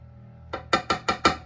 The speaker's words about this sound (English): and dump all the contents in the potatoes.